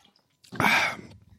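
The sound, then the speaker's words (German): A single slurping sip of Coca-Cola Zero, a breathy, hissing burst lasting about half a second, heard alone without talk. “Schluck Cola. Ähm, Zero, na klar.”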